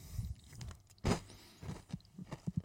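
Crunchy chewing of a biscuit, quiet and close, with one sharp louder crunch early on followed by a string of smaller, irregular bites and chews.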